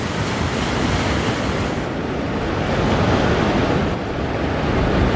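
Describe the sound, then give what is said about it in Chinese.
A storm with waves and wind: a loud, steady roar of surf and gusting air that continues unbroken for the whole clip, with no voices. “风暴逐渐平息，幼崽们可以继续学习捕猎了。”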